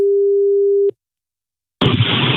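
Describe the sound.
Ringing tone as a telephone call is placed: one steady, loud mid-pitched tone lasting under a second, a short silence, then a sudden burst of loud line noise as the call connects.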